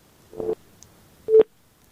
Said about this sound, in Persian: تماس دوست ما هم قطع شد